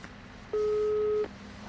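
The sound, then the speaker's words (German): A telephone call rings out with a single steady mid-pitched ring-back tone lasting under a second, set against a faint constant hum with no voices. “Ich rufe ihn an, das dauert mir alles zu lange.”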